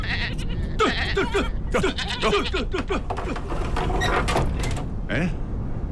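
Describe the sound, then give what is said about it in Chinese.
Sheep bleating over and over as a ewe nears giving birth in cold weather, with many short wavering bleats overlapping in a steady, loud stream. “母羊要产崽了，天这么冷，小羊羔冻死咋办呢？ 哎呀，快快快，把母羊赶到我屋里来。”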